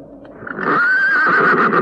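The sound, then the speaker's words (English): A pony whinnies in a graveyard: one loud, high, quavering neigh that holds for about a second, heard alone after a faint rustle. “God, I walked straight into the pony. I didn't see it.”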